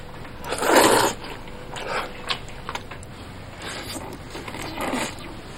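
Slurping and chewing of braised meat noodles, heard as a few soft, noisy bursts of eating sounds at low volume, with no talking.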